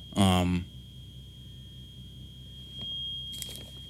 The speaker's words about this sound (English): sorry, that was like an alarm in my house.